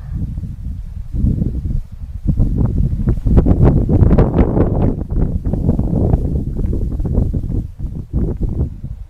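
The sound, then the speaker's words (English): Wind blowing in a loud, steady rush that swells and eases slightly but never stops. “The wind is blowing in honor of you.”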